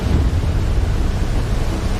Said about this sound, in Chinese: 这是其他海上装备监视器中拍到的画面。12级风暴已经足够掀起滔天巨浪，平台在风浪中上下起伏